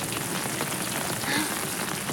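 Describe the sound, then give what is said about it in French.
Gentle rain falls with a steady, even hiss of soft pattering drops, constant throughout with no other sounds. “Maintenant, il pleut tout doucement.”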